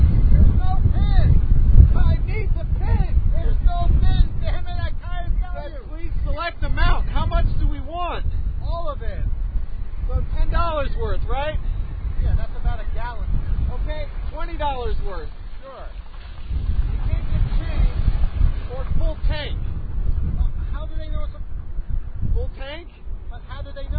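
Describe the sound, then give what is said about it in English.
Strong wind blows outdoors at a fuel pump, a continuous low roar that buffets the microphone throughout, with people talking over it. “It's blowing like crazy.”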